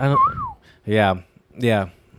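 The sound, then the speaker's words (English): A person whistles three short phrases, the first gliding up and then down in pitch, the next two brief, bright and fairly loud, with short gaps between them. “Pretty good whistle, actually.”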